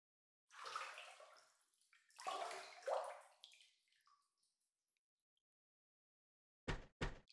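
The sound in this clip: Water in a room's bath as someone gets in: two long swells of sloshing and splashing, then near silence, then two brief, sharp bursts of sound at the end.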